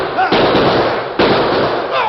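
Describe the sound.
Gunshots ring out in a radio drama shootout: a few loud, sharp bursts, each with a dense, noisy tail that runs into the next, and faint voices mixed in beneath.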